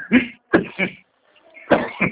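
Coughing from a person who has just choked: several harsh, rasping bursts in two short clusters separated by a brief pause, without speech.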